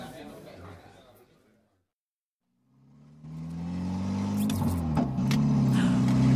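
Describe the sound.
Car engine being driven, a low rumble that rises out of a silent gap and grows steady and louder, after voices at the start.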